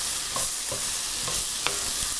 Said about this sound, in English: and I hear the onions sizzling over here. So I'm going back and I'm stirring them.